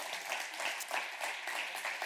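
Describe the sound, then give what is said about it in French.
A church audience applauds together, a dense, even wash of many hands clapping that holds steady and fairly loud for the whole two seconds, with no voices standing out. “Est-ce qu'on peut donner une main d'applaudissement pour ça?”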